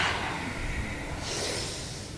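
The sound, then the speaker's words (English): A forceful exhale during a stretching and breathing exercise: one long, steady, breathy rush of air that lasts about two seconds. “take your head down, legs straight, stretch the back, and then inhale up, and exhale forward”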